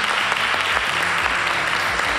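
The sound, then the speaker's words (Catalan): Audience applause fills a museum after a narrated performance, a dense, steady wash of many hands clapping at an even level throughout, with no talk on top. “Per favor, un aplaudiment.”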